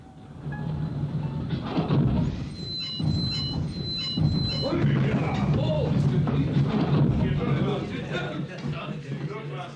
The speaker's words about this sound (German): Ziehen Sie die Notbremse. Die Notbremse? Dort. Ziehen Sie kräftig, damit der Zug stehen bleibt.